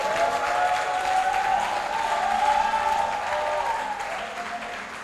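A church audience applauding and cheering: a steady wash of dense clapping with high shouted cheers running through it, fairly even in loudness for about five seconds.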